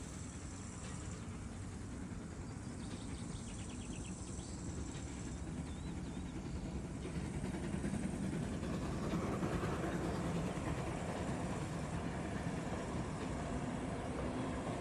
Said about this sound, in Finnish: Halki peltoaukeiden juna kiitää.